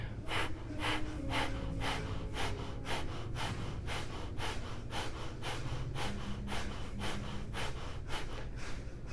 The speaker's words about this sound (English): We'll do 20 more Kapalbhati, breath of fire. When you're ready, forceful exhale and the belly goes in.